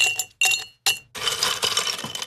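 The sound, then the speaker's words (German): Ice cubes clink against a glass of Campari soda in three sharp, bright taps, followed by a longer stretch of busy, hissing clatter. “So ein Eiswürfeli.”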